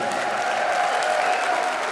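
Sustained crowd applause greets a Latin-pop singer coming on stage at an outdoor festival in a theatre, a dense, even wash of many hands holding a steady level throughout.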